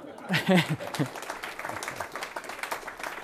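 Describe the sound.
Audience applause welcoming General Klotz as a speaker: a brief voice at the start gives way to steady, moderately loud clapping from many hands that carries on to the end.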